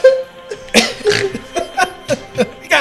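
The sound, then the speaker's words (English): A person snorts in a rapid run of short, loud nasal bursts with an uneven rhythm, resembling snorting laughter or coughs. “Snorting over here.”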